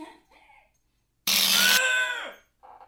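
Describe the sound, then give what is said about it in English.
Clamps and a vice being tightened make a single loud, harsh ratcheting grind lasting about a second, its tone sagging lower as it trails off, with faint sounds before and after. “Let's tighten the clamps and the vice some more.”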